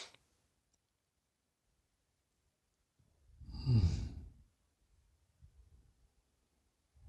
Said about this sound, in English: Wonderful breath in.